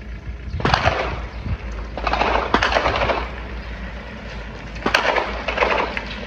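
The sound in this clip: Gunfire from a quadcopter drone over Jabalia camp: several bursts of rapid, sharp crackling shots separated by short gaps, loud against a low background rumble, with no talking.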